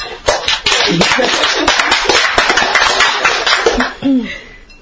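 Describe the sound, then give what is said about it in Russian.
Audience applause from many hands, a dense run of sharp claps that thins out toward the end, with brief laughter and a voice mixed in. “А да, похлопаем ей.”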